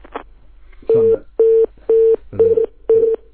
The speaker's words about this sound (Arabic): اتصال اتصال انقطع مع السادة المستمعة